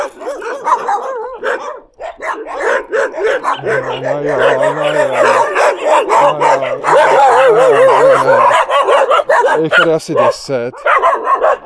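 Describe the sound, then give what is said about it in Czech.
Three dogs bark at a passing walker, a dense run of loud, overlapping barks and yips with whining, whimpering tones woven between them. “Ahoj, pejsku. Já jenom procházím, pejsci. 3 psy.”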